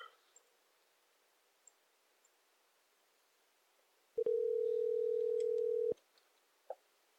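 Ringback tone of an outgoing telephone call that goes unanswered: a single steady electronic tone lasting under two seconds, surrounded by faint clicks and near silence.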